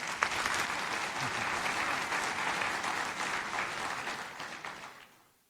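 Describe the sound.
A conference audience applauding to welcome speakers: steady, dense clapping that holds for about five seconds, then tapers off and fades out.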